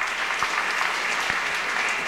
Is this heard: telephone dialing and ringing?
no